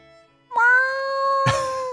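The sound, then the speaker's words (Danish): A hungry cat meowing loudly at night while being followed down the stairs, wanting to go outside: a faint note, then a long, drawn-out, harmonic meow with a brief noisy burst partway through. “Du følger efter katten ned ad trappen. Den bræger, som om den har sultet i 3 år.”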